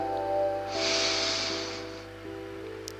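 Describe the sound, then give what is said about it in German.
A single deep inhale during a gratitude meditation, heard as a soft, airy rush that swells and lasts about a second and a half over a steady low hum, with no talking. “gönn dir einmal zwei tiefe Atemzüge. Atme tief ein”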